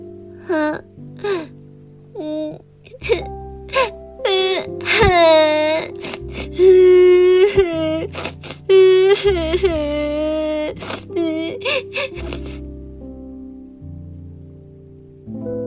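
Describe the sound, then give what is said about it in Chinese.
A voice imitates a frightened long-necked dinosaur crying and wailing: a string of loud, pitch-bending sobs and moans that rise and fall, then fade to a quieter tail near the end. “长脖子并不觉得痛，但他被秃头给吓到了，而且他不知道接下来该怎么办才好，于是哭了起来。”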